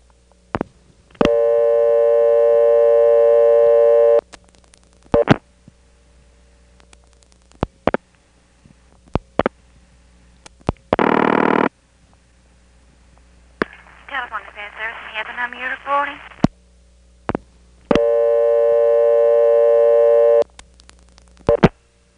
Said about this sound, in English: One, I dial 7411. The other way, I dial 8 and then 9 to get into the NX1 in Wilson, and then dial 411. Let me demonstrate the two routings to repair service.